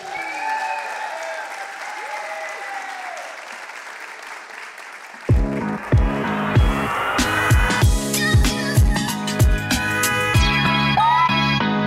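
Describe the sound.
A church audience applauds and cheers as a pastor is welcomed, a broad wash of clapping, with a loud pulsing rhythmic beat joining in about halfway through.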